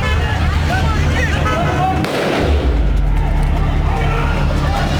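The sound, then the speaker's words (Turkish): Gunfire as soldiers open fire during a coup attempt: a sharp, noisy burst cuts through midway against a steady low rumble, with murmuring voices in the background. “Ateş açıyorlar beyler.”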